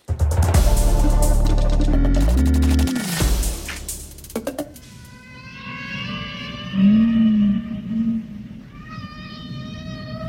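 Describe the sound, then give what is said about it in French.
Whales singing: long, drawn-out tonal moans and gliding calls that rise and fall, some deep and some higher and reedy, following a dense burst of other sound at the start. “Ne se lasse pas d'entendre les baleines chanter”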